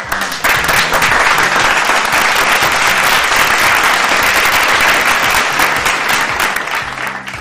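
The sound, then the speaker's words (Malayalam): Audience applause from many hands bursts in abruptly and holds at a loud, even level as dense, steady clapping for several seconds, easing only slightly near the end. “അപ്പോ എല്ലാവർക്കും ചേർത്ത് നല്ലൊരു കയ്യടി തരികയാണ്.”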